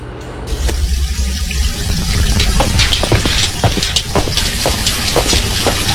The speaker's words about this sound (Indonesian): Itu mumpung air dari PDAM-nya mengalir. Jadi Ibu buka besar ya kerannya?